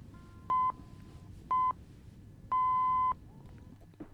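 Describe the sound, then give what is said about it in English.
Tense countdown timer effect made of three electronic beeps at a steady mid pitch, two short ones evenly spaced and then a noticeably longer third, each sounding alone over a faint background. “what I'm going to do is I'm going to give you a tense countdown-esque timer to you making a decision. It's going to sound like this.”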